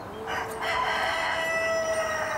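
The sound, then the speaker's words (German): A rooster crows in one long, loud, sustained call with a strong harmonic, slightly strained tone, heard alone without voices. “Schon kommen die neuen Nachbarn auf einen Klönschnack vorbei. Herr Hahn zieht vor seinen Händen eine Show ab und spielt den Raubtierbändiger.”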